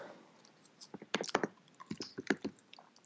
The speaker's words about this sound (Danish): Og jeg kan lige så godt sige undskyld allerede nu, fordi at jeg i dette klip tykker tyk gummi og smasker helt utroligt højt.